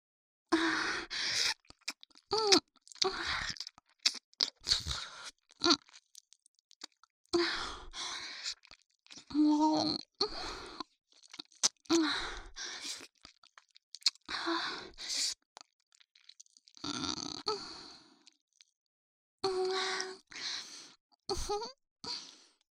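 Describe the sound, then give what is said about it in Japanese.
Close, wet ASMR mouth sounds of ear eating and kissing: many moist smacks, licks and clicks in irregular bursts, with soft breaths and short silent pauses between them. “君の耳、柔らかくて美味しい。ずっとキスしたくなっちゃう。”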